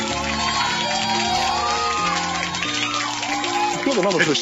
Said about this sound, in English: It's at this point I normally say something like, calm down, actually pretending there's a real audience and I didn't just press the right button.